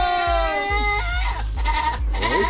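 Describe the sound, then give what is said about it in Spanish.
A goat bleats in loud, nasal cries with a wavering pitch, one after another, over a low, regular thumping beat. “Nomás dije saludos para todos ellos y empezó el chivo, mira.”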